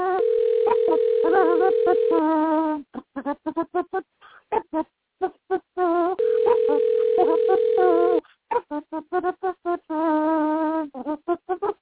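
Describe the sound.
Telephone dialing tones played as dialing music: a steady dial tone sounds twice, about two seconds each time, each followed by quick bursts of beeps, while voices sing along over it.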